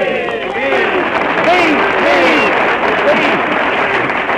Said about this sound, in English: Come on, fellas, let's all give Kenny a big cheer. Hooray! Wait for us, Kenny. Now, all together, boys. Hooray!